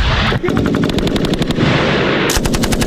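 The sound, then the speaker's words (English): Machine gun fire from archive war footage: rapid, regular bursts of sharp cracks that run almost continuously and turn denser and louder near the end, with no voices. “Ready for some machine guns?”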